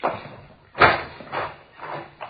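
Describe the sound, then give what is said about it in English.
A door being opened: a sharp, loud clunk followed by a few softer thuds spaced about half a second apart, with no voices over them. “Here, I'll get the door.”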